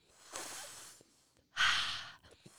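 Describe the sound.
Hissing cooling breath drawn in through a curled tongue during a yoga breathing exercise, heard as two broad airy rushes, the second louder and fuller, with no talking.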